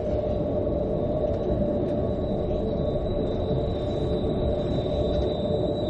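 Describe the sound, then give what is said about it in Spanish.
A train passes through stations. It makes a continuous low rumble with a thin, high steady whine above it, holding an even level for about six seconds. “Un tren pasa por varias estaciones.”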